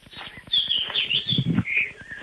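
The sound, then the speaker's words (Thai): Birds chirp in a few short, high tweets spread across about two seconds, fairly faint. “โอ้โหเสียงนกเจ๊แก้วเลยครับเสียงนก”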